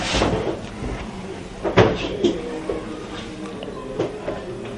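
Someone rummages through a pile of books, making scattered soft shuffling and bumping with a few sharper knocks standing out, and no voices.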